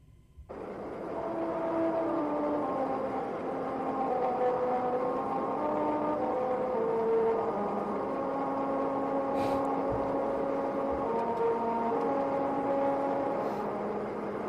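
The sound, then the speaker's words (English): A car driving at 45 mph over the grooves of a musical road that plays America the Beautiful. Its rumbling hum forms a sequence of sustained, stepping tones that trace a slow melody over steady road noise. “if you drive over them at 45 miles per hour, it actually plays the song America the Beautiful. I'm going to play a clip for you guys so you can hear what it sounds like.”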